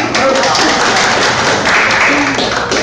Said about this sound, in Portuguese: Salve, palmas.